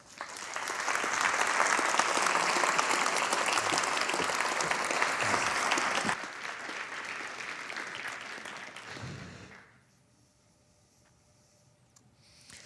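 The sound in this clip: An audience applauds to welcome a speaker from Oxford, England, with dense clapping that is loud at first, tapers off gradually and then falls to near silence.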